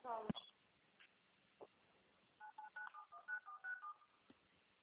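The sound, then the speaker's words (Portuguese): Telephone tones during a bank call's transfer: a rapid series of short, clean beeps at a steady mid pitch, fairly faint, after an earlier click and a low thump. “Estou transferindo a sua ligação. Tenha uma boa tarde, por favor, não finalize o contato.”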